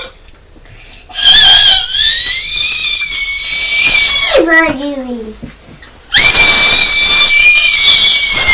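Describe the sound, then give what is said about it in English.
A young child screams in two long, loud, shrill bursts, with a short lower voice sounding between them. “Oh, don't scream”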